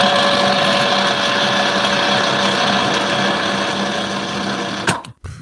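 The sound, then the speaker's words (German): A kitchen appliance runs with a steady, loud mechanical whir and a constant motor whine. Near the end it catches with a clunk and cuts off, leaving a brief rattle. “What is that? Küchengerät, natürlich.”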